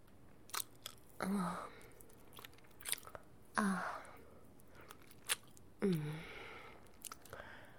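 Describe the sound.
Wet licking and mouth sounds, three longer slurping strokes spaced a couple of seconds apart, with faint smacks and clicks between them, soft and alone.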